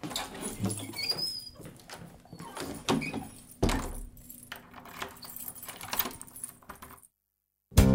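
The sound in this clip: Keys jangle and clink in many irregular metallic bursts, busy and fairly loud for about seven seconds, then the sound cuts to silence before a short burst at the very end.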